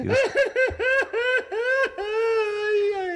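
A man cries in a studio, a string of short, wavering, high sobbing wails that end in a longer, drawn-out cry.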